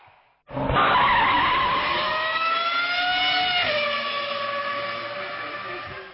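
Tires screech in a long skid from the racing video game Need for Speed, bursting in loudly after a brief quiet and holding a sustained, tonal squeal over engine roar, with a slight drop in pitch partway through.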